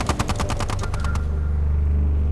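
A chain gun fires a rapid, evenly spaced burst of many loud shots, then stops abruptly halfway through, leaving a low rumbling drone.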